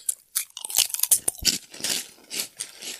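Crisp crunching of vegan krupuk crackers eaten from a bag: many irregular, sharp bites and chews in a quick, uneven series, fairly loud and with no talking.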